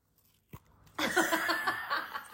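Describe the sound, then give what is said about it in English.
A biscuit bitten and crunched right at the microphone: a small click, then a loud bite and a burst of rapid, crisp crunching chews. “Can I give an ASMR of the biscuit?”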